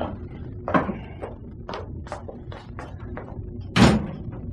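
A cabin door aboard a ship bangs as someone comes into the room, two heavy wooden thumps at the start and end with a series of lighter knocks and bumps between them.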